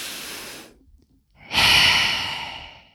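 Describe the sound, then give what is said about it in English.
A deep breath in: a long, loud, breathy inhale that swells and then slowly fades, preceded by a shorter breath sound and a brief pause. “When you think about these things, take a deep breath in, like,”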